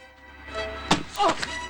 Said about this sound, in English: One girl smashes a watermelon over a boy's head.